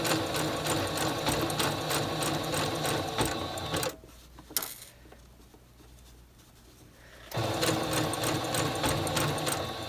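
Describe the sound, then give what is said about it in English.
Sewing machine stitching a blind hem along a fabric fold, guided by a plastic guide: a rapid, steady mechanical whir that stops for about three seconds with a soft click, then resumes at the same pace. “needle is going just down this side piece here, this little seam allowance, and then every few stitches it's going over and catching the fold, and that's what's creating the hem.”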